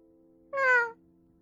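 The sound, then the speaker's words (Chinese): A single cat meow from a white cat, about half a second long, clear and moderately loud, its pitch falling toward the end, with a steady faint hum underneath. “他冷漠地喵了一声。”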